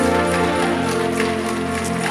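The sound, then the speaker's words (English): Church audience clapping hands in praise, sharp claps recurring over sustained instrumental music. “Come on, clap your hands and bless the Lord.”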